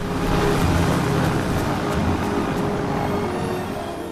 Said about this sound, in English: Simon and Lloyd travel along the river in a rubber dinghy with an outboard past rocks and lush vegetation.